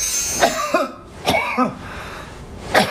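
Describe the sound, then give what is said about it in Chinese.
Coughing from a cold-phlegm cough, clear and short in tone: a few brief, sharp bursts separated by pauses, heard alone with no talking. “这是听声音哈， 听声音，这是咳嗽的声音，它会有特色。”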